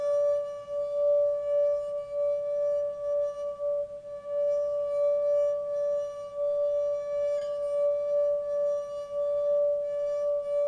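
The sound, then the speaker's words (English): Ringing tone from tuned pipes and wine glasses played as percussion instruments, one steady, clear pitch with bright overtones held throughout, swelling and easing gently in loudness. “We have tuned pipes, wine glasses,”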